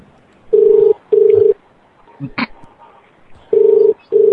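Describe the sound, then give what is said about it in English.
A telephone rings in a steady, buzzy double-ring pattern, two paired bursts, then a quiet gap with a brief other sound, then another pair with the last burst cut short. “Dude, this has got to be people's favorite show. Where people don't hang up and other phones ring.”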